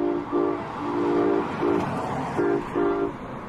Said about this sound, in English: There's a lot of trains here.